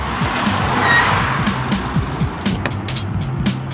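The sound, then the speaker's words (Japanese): Taxi car arriving, a steady low engine and road drone with many short ticks and rattles throughout, fairly loud and without talk. “あーよかった、タクシー来て。”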